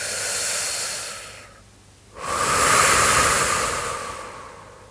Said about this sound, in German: Beginn einfach zu atmen. Atme ganz fest aus. Und wieder ein.